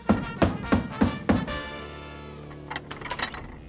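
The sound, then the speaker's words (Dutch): Knocking on a castle gate in a children's story as a knight mouse demands entry: five heavy, evenly spaced knocks with a low booming resonance, followed by a few lighter, quicker taps. “wie klopt hier zo redderlijk op de poort?”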